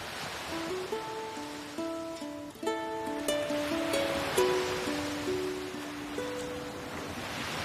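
Ocean waves on the sea make a broad rushing wash that swells and ebbs, mixed with a gentle melodic line of plucked notes throughout.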